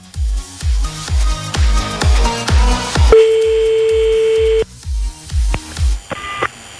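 Telephone tones as a call is dialled and fails to connect: a long steady tone and, later, a short higher beep stand out over a beat of regular low thumps.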